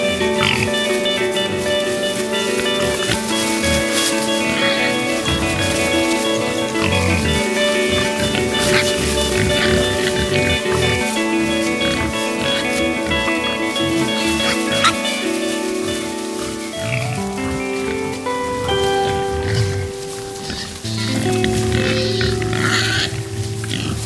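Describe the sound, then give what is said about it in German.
Wild boar grunting in a steady, loud stream of many rough, nasal grunts and snorts that carry on without a break for the whole stretch. “Welches Tier suchen wir? Ich sag es dir. Es ist das Wildschwein.”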